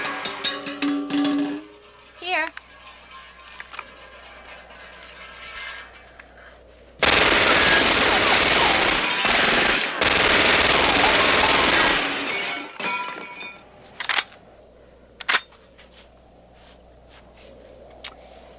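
Machine-gun fire from a film scene: a loud, dense, unbroken burst lasting about five seconds, framed by quieter passages and followed by a few sharp, isolated bangs.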